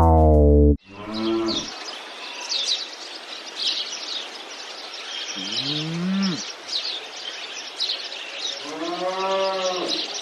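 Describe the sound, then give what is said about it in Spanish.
A cow moos three times, low and drawn out, while walking in a meadow. Birds chirp faintly throughout. “Esto es una vaca que está paseando por el prado”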